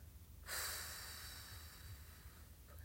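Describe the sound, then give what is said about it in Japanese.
A slow breath out during a relaxation breathing exercise begins abruptly and then fades away gradually, faint and alone. “吐き切るまた吸って笑顔と背筋キープです吐きます”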